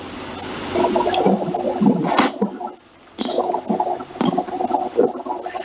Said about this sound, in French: Il y a de l'eau qui coule chez la soeur Ophélie, c'est pour ça que vous entendez ces bruits-là.